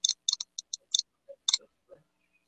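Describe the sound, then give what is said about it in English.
Soft, crisp clicks come in an uneven run from a Nintendo Switch as text is typed in, each tap short and faint against silence, some doubled and the last few spaced further apart. “Let me just type it in into my Nintendo Switch.”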